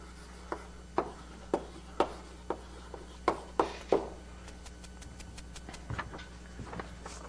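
A lecturer writes on a board in a lecture hall, with a series of sharp, evenly spaced taps followed by quicker, fainter scratchy strokes, all quiet and with no talking.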